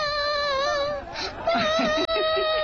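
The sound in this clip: A little girl cries, beginning with a sustained, high-pitched wail that breaks into uneven, sobbing whimpers.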